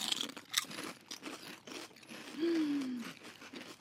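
Crisp crunching of mango habanero potato chips being bitten during a chip taste test: a few sharp, dry crunch bursts near the start, then quieter chewing.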